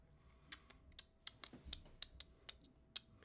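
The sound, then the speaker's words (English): Typing on a computer keyboard, entering text on Instagram during a live stream. Many light, irregular key clicks are heard, faint and alone, with a few louder taps standing out. “Over here, let me type this in on Instagram.”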